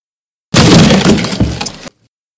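A door being broken in: one loud, continuous splintering crash lasting just over a second, with a second surge of cracking near its end before it cuts off abruptly.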